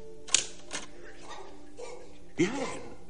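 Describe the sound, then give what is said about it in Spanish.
Typewriter keys strike as a name is typed onto a blank sheet of paper. A few sharp, separate clacks are broken by pauses. “Luego aprieta algunas teclas escribiendo Blanca en la hoja en blanco.”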